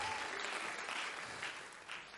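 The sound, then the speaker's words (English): A church audience claps its hands during a service, a dense, steady patter of applause that stays fairly faint and unbroken throughout. “Let's clap our hands again to the Lord.”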